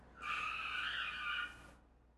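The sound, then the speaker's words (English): Tires screech as a car skids and nearly crashes outside the window, one sustained high squeal lasting about a second and a half before cutting off into quiet background noise. “A car just almost crashed, but did not, outside of our window.”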